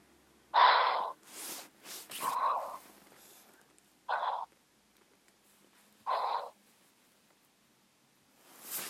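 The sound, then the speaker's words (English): Heavy breathing in and out from a person told to breathe deeply during a faith-healing prayer session: several loud, breathy rushes of air separated by quiet pauses. “Just breathe in and out 5 times heavily. Breathe in and out 5 times heavily. Yes, I'm doing this.”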